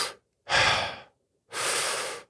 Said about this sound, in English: And you breathe like this